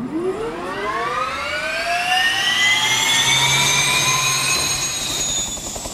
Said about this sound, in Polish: Dodajemy po prostu więcej mocy i zwiększamy kąt nastawienia łopat wirnika nośnego.